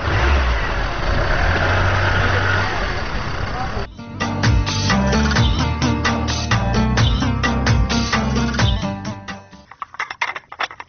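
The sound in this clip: A car engine running and revving, a steady roar that turns into a pulsing, rhythmic churn with harder revs, then drops away into a few scattered knocks at the end.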